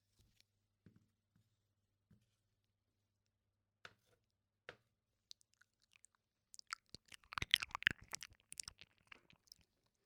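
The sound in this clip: Someone eating homemade crab, with quiet crunching and biting: a few sparse, faint clicks at first, then a dense cluster of crackling crunches near the end.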